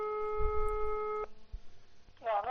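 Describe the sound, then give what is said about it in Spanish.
A telephone being dialed to place a call: a steady electronic line tone cuts off abruptly, followed by a few soft clicks and a brief voice. “Pues marque para llamar, venga, marque para llamar.”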